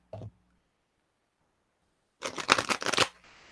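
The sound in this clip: Playing cards are shuffled before a final card is drawn. A brief soft tap comes first, then a pause, then a quick papery riffle of about a second.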